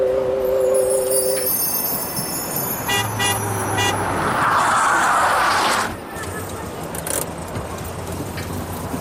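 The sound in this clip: A car in a video game drives with a steady engine rumble and road noise under talk, then grows quieter after about six seconds.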